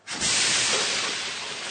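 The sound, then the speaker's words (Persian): Hissing steam and spraying water burst from an overheated car radiator as the cap is opened: a sudden loud, broad rush that starts sharply and then slowly eases while staying steady. “ماشین سرگروهبان جوش آورده، در رادیاتورش رو باز میکنه که آب بیرون میزنه.”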